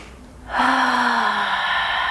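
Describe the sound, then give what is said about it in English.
A deep breath is drawn in through the nose during a breathing exercise. After half a second of quiet, a loud, airy, steady inhale begins and holds to the end, with no talk. “And it's as simple as breathing in through the nose,”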